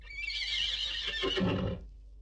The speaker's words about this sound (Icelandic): Sox, eini hesturinn sem er eftir, er einmana. Hann hnekkjaði í alla nótt á fallna félaga sína.